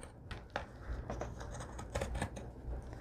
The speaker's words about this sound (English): So let's go ahead and just trim this. And I'm just going to leave approximately a quarter of an inch all the way around. And here we go. So we're cutting right through the felt and right through both pieces of fabric.